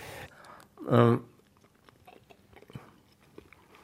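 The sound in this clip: Faint, irregular chewing clicks and mouth sounds from someone tasting smoked salmon, following a brief louder vocal sound.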